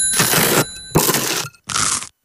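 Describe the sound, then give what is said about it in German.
Crisp crunching bites into a warm, buttery croissant: three distinct crunchy bursts separated by short silences, followed by the start of another at the very end. “Das Croissant ist nämlich immer noch ganz butterig und warm. Hör mal.”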